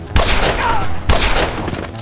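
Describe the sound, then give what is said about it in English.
Two gunshots fired at night in driving rain: loud, sharp cracks about a second apart, each leaving a dense wash of noise that continues between and after them. “They're getting close. I'd say we can shoot now.”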